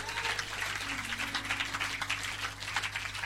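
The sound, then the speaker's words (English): Congregation clapping hands together in a church service, a dense, steady patter of many palms that holds evenly from start to finish over a low, constant hum. “clap your hands unto Jesus wherever you”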